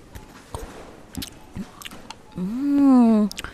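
Someone chews food, making a few soft, wet bites and crunches, then lets out a sustained, appreciative hummed 'mmm' near the end.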